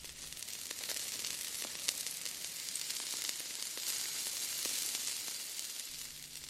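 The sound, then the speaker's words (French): Sausages sizzling as they fry in a pan, a steady, dense hiss with scattered crackles and pops throughout, with no voices. “Vous avez deviné C'était tout simplement des saucisses à la poêle.”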